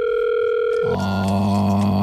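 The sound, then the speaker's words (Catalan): Telephone line tones on a live radio call-in: a steady electronic tone switches just before one second to a different, lower set of continuous tones, held unbroken with no voices. “És que l'estan trucant a vostè. Trucant en directe a Salvador Oliver.”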